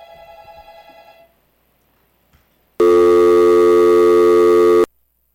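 A telephone tone after the caller hung up: one steady, loud electronic tone lasting about two seconds, then silence. A brief fainter sound comes before it.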